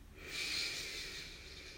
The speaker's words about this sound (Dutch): Haal maar even diep adem. Adem maar even in door je neus naar je buik.